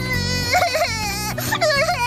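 A child crying in short, wavering, high sobbing wails, loud and alone, with brief catches of breath between them.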